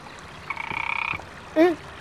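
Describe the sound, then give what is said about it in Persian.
A frog croaks: a rapid, buzzy rattling trill of under a second, then a single short, louder tonal call, with no voices. “قورباغه.”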